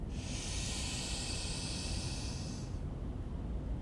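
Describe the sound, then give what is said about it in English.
A single slow, deep inhalation during a guided meditation pause makes a faint, steady, airy hiss lasting about two and a half seconds, then stops, leaving quiet room noise. “And take a deep breath in”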